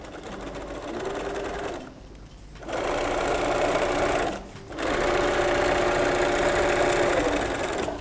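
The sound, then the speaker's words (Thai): A sewing machine stitches thick fabric in steady whirring runs of rapid needle strokes, pausing briefly twice as the fabric is turned before stitching resumes, then backstitching, fairly faint and even in pitch. “แล้วเราก็วางลงเราก็เย็บนะคะมันถึงจะเย็บได้สุดแล้วเราก็ย้อนกลับมาอีกหนึ่งครั้ง”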